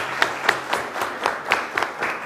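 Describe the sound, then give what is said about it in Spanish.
Audience applause for contestants at a quiz competition, with steady clapping that carries regular, evenly spaced peaks, moderately loud and without any talk. “Un aplauso también para su compañera.”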